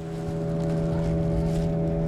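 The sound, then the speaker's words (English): A boat motor drones steadily as a boat loaded with about a dozen large sacks of jagua heads upstream on a river, a constant, even hum with no breaks across the short stretch. “The men load about a dozen large sacks of jagua onto a boat and head upstream.”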